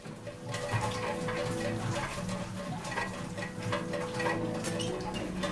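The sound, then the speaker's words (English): Rain pattering onto the end of a rusty metal pipe outside, a dense, continuous wash of countless small taps and hiss that holds a steady loudness throughout, with no voices. “Rain is still beating down outside, pattering onto the end of the rusty metal pipe leading to the panic room.”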